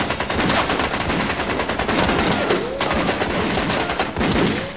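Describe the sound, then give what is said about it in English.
Rapid gunfire from guns loaded with blanks on a film set, a dense, loud, continuous barrage of sharp cracks that barely pauses over several seconds, with no talking. “these things are firing blank!”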